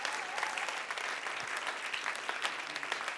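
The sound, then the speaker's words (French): A church audience claps their hands in a steady, dense burst of applause from many people, even in loudness for the whole stretch. “If you have two hands, si t'as deux mains, clap your hands. Acclame.”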